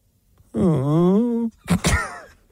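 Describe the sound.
A voice imitates an involuntary groan of pain from a pounding headache. It is one low, sustained moan of about a second that dips in pitch and then holds steady, followed by a short second burst of vocal sound.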